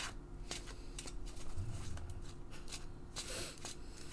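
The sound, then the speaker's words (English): Pokemon trading cards being pile shuffled, dealt one at a time onto stacks: faint, soft papery taps and slides at irregular intervals, with a few sharper card snaps over quiet background hiss. “I'm also a big fan of like a pile shuffle as well. If you're starting the game, just doing like a something along these lines.”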